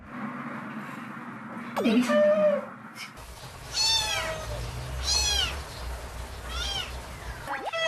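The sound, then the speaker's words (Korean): Kittens cry with a few high, thin meows, rising and falling, while their mother cat Ong is being fed. A voice speaks early on, and a low hum runs underneath. “아이고, 그 와중에 새끼 울음소리를 들은 모양인데요.”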